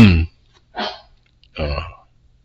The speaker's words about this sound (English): I got a little coughing dog in the background still